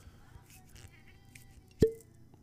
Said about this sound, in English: This is a glass with some ice.